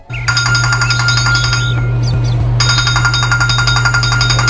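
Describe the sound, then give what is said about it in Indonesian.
A telephone ringing: two bursts of rapid, bright electronic trilling with a short pause between them, over a steady low hum. “Pak, ada telepon nih dari Pak Adi.”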